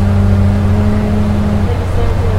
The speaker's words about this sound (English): We've got the engine. ACB cafe is having supper tonight.